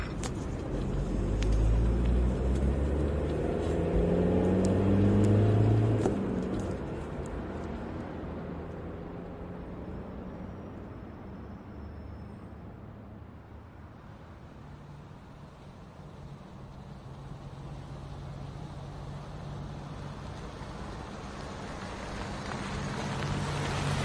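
A car accelerates away with a loud, low engine rumble for several seconds, then settles into a quieter, steady road drone that lasts to the end.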